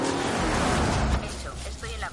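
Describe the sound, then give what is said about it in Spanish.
A car overtakes with a broad rush of engine and road noise that holds for about a second and then drops away. A voice follows briefly at the end. “Adelanta un coche”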